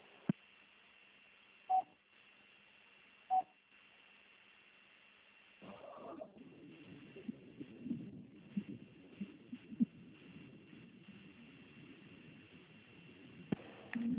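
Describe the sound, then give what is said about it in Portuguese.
Two short, clear beeps on a phone line as a call is transferred, separated by quiet hiss, followed by a low, noisy open line with scattered faint clicks. “Eu vou liberar, vou transferir a sua ligação para o controle de qualidade, que vai dar continuidade na contratação. Não desliga, por gentileza”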